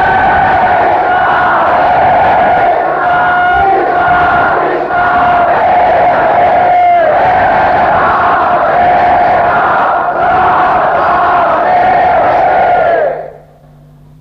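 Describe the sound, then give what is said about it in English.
A large crowd at Mayapur chanting the holy name loudly in unison, a dense, melodic wall of voices that holds steady for about thirteen seconds before dropping away abruptly. “Prabhupada wanted the whole world to hear the holy name from Mayapur. So please chant much, much louder.”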